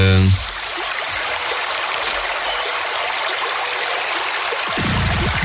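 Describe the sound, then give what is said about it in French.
Running water rushes in a loud, steady, continuous stream, with brief tonal sounds at the very start and near the end. “L'eau qui coule.”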